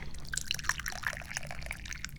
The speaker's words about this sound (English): And obviously I need to pour some tea.